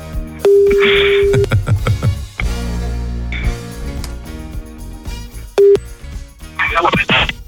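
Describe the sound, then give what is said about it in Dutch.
A telephone ringback tone sounds as a call is placed to a camper in Norway: a steady mid-pitched ring lasting about a second, then a shorter tone near the end, with music playing underneath throughout. “Wij gaan bellen met de camper. Kijken of hij op gaat nemen.”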